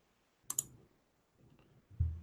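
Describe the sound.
Key clicks from typing names into a computer keyboard: a couple of sharp, bright taps in quick succession, then a few softer clicks and a duller knock. There is no talk.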